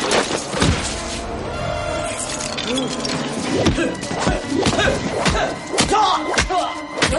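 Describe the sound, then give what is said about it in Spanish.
Fight impacts as Agent Smith headbutts Morpheus and hurls him against a wall in the 1999 science-fiction film The Matrix: a rapid run of sharp smacks and heavy thuds. “Smith se suelta y cabecea a Morfeo. Le lanza contra la pared.”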